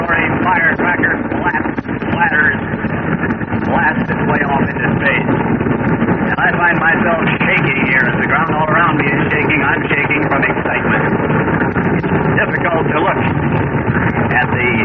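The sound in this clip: Rumble of a giant missile launch shaking the ground, a loud, continuous roar that stays steady throughout, with a voice talking over it.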